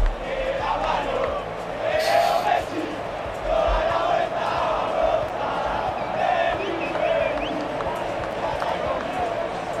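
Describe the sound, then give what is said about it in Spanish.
Football players and a stadium crowd sing and cheer in celebration after a World Cup match, a continuous roar of many voices with chant-like singing rising above the din. “Están manteando ahora mismo a Leo Messi. Ahí está encima de los hombros de Enzo Fernández. Así suena.”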